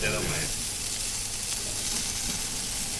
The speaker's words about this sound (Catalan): Que m'agrada com sona a mi la brasa.